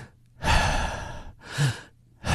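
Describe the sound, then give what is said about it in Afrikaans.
A slow, deep breath taken during a calm devotional moment: a long, airy inhale followed by a shorter, softer exhale, with another breath starting at the end. No one speaks. “okay, kom ek haal diep asem.”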